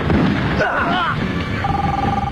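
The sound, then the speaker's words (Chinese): A mobile phone rings on the body of a gangster killed in a gunfight, a steady electronic tone holding through the second half, with voice-like sounds and background noise before it. “包勃从一个被打死的匪徒身上找到了一个正在响着的手机，出于好奇他接听了。”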